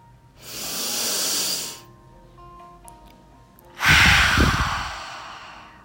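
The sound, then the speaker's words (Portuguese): Two long, airy exhales out through a wide-open mouth during a guided meditation, each a soft breathy rush lasting over a second, the second one fuller and slightly deeper, with a quiet pause between them. “soltar pela boca, abrindo bem a boca e deixando o ar sair, fluir. Mais duas vezes.”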